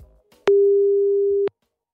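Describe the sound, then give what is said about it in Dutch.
A telephone ringback tone plays while a call is being placed, a single steady mid-pitched tone lasting about a second, alone, with silence before and after. “Nou, de hoogste tijd om even te bellen met een corporate recruiter bij de gemeente en dat is Sharon Den Boef.”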